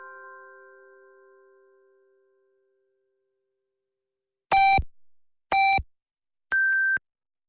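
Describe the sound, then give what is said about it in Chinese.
Hourly time-signal pips on a Chinese radio station at noon: three short electronic beeps about a second apart, the last one higher in pitch. They follow a fading tone and a stretch of silence. “现在是北京时间12点”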